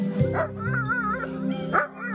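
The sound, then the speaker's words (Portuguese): Dogs whimper and whine in high, wavering tones, broken by a couple of sharp yelps. They are mistreated racing dogs in Argentina. “O flagrante dos cães chorando”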